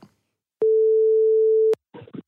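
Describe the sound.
A steady telephone call tone plays as someone phones a guest, one mid-pitched beep held for about a second. Brief snatches of talk come just before and after it.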